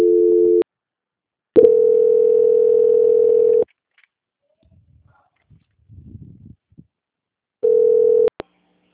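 Steady mid-pitched telephone tone during a call transfer, sounding as three flat beeps of uneven length separated by silence, with faint scattered noises in the gap before the last beep.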